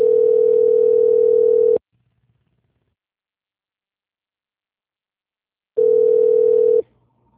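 A telephone line sounds a steady, loud, buzzing tone while a call is being transferred: it holds for almost two seconds, then silence, then the same tone returns for about a second.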